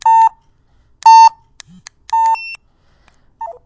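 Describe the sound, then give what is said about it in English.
Electronic beeps from a device entering tone mode: a few sustained, even mid-pitched beeps spaced about a second apart, with a brief low buzz between them and a short chirp near the end. “you got a low-high beep. That means that it's in tone mode.”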